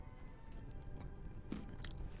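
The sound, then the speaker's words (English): Someone chews a macadamia nut with soft, quiet munching and a few sharper crunchy bites scattered through, and no talking. “And the taste is worth it. It's a macadamia.”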